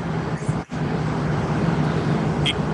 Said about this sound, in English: Somebody driving?